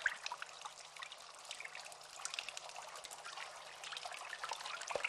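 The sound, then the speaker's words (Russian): Water pouring and trickling in a tunnel, a faint, steady splashing wash with fine drips and spatters running unbroken throughout. “Вода льется дождем из отверстий, стекает по стенам, собираясь в лужи на полу.”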